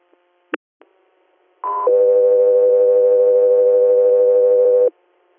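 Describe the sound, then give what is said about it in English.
Two-tone radio dispatch alert for an air medical inter-facility transfer: a short higher tone, then a long, steady, lower tone of about three seconds, with a couple of brief clicks just before. “stand by for tones.”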